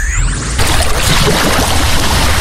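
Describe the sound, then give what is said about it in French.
Sea waves wash in a steady, broad, rushing hiss of surf on a beach, holding an even loudness throughout with no voices. “Fermez les yeux. Vous entendez la mer, le vent doux sur la peau”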